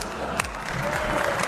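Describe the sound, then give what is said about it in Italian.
Applause from an audience in a parliament chamber: a dense, steady clatter of many hands at a moderate, even level, with a faint crowd murmur mixed in. “That's the last time you are applauding here.”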